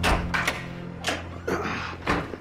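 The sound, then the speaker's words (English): The front door of a large house with a covered entryway swings open with a few dull clunks and rattles spread over a couple of seconds, heard alone over a steady low hum. “Then Nurse Broadfield opens Farthingale's front door.”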